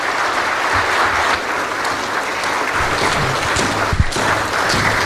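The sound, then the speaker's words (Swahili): Dense, sustained applause from an audience for the President at a formal event in Tanzania. It holds a steady, loud level throughout, with one brief sharp thump near the end. “naomba tuinuke na tuendelee kupiga makofi mengi kwa Mheshimiwa Rais.”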